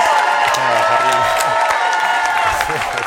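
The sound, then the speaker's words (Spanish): A studio audience applauds and cheers with scattered whoops. The clapping is steady and moderately loud, with voices talking over it. “apláudanle, apláudanle, tenemos público aquí, que vamos a poder.”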